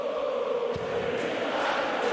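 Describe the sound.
Darts crowd singing together to warm up between sets: a dense, steady wash of many voices around a sustained sung tone, continuous and fairly loud throughout.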